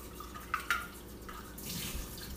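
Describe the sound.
A 1-cup and a 1/4-cup measuring cup are rinsed under a running tap while baking. Two brief, quiet knocks come first, then the flow of water swells into a broad, steady splash in the second half.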